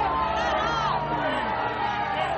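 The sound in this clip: Crowd booing at a gathering over police violence, a continuous low chorus of many voices with a steady hum underneath.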